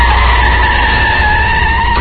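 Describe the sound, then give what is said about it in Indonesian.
Tires squeal as a car brakes hard and skids, a loud, continuous high screech with a rough roar beneath that holds steady for the whole clip. “Seketika aku langsung menginjak rem.”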